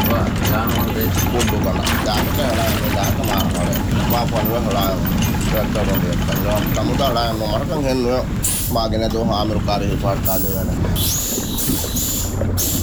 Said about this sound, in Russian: Кабина капитана лодки Дони. Заброс и вылов дайверов.